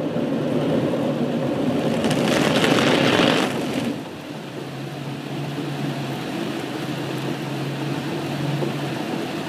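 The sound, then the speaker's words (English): A car passes through a car wash: a loud, steady rushing and rumbling with a stronger hissing spray burst early on, then a lower continuous drone of water and machinery. No voices are heard. “This is the sound of our car going through a car wash. In the car wash, your car gets clean, and there's a lot of noise.”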